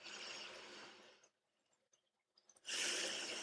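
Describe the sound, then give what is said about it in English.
Slow, deep breathing during a guided breathing exercise: two long, loud, airy breaths, an exhale and an inhale, separated by a quiet pause. “Let's breathe. Exhale to the count of five. Inhale to the count of five.”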